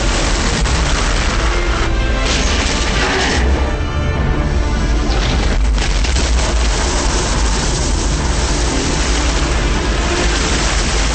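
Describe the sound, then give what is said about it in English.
An underwater explosion sounds as a loud, dense, muffled roar that rumbles on continuously without a sharp attack. No one speaks. “The explosion creates a violent current heading toward the surface of the water.”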